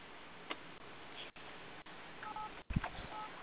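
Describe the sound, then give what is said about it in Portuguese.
Telephone tones as a call drops, a few short two-tone beeps near the end over thin, hissy phone-line noise with brief dropouts. “Caiu a ligação. Bota a ligação em seguida.”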